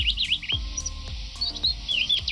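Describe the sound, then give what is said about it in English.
Small silvereye, a tiny grey-green bird with a white eye ring, giving quick high-pitched twittering chirps in a backyard, a fairly soft string of short rising and falling notes. “he came across a silver eye”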